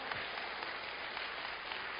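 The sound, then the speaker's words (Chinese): Applause from a church audience, a steady, dense wash of many hands clapping at moderate volume throughout, with no pauses. “给神一个掌声”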